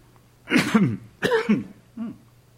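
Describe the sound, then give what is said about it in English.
Three throaty coughs from a man with a tickle in his throat, the first two loud and close together, the last shorter and weaker. “Sorry, getting a little tickle in my throat here.”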